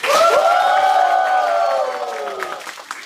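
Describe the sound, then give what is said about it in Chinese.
An audience cheers and applauds to welcome guests. A drawn-out whooping cheer slowly falls in pitch over a light patter of clapping, then fades toward the end. “掌声欢迎马军和阿成”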